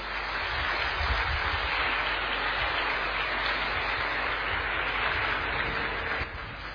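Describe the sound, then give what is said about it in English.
An audience applauds to welcome the monk Ajahn Brahm before his evening talk. The clapping is a dense, even wash that stays steady throughout and eases slightly at the very end. “Please put your hands together. Welcome, Ajahn Brahm.”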